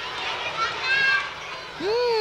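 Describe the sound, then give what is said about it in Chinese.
Many children's voices overlap in a lively, high-pitched jumble of playful calls and shouts, with one clear shout standing out near the end. “好像是很多孩子的声音哦”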